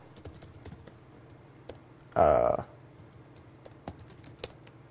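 A brief, rapid flurry of keystrokes on a computer keyboard as a web address is typed, with a few faint isolated clicks before and after.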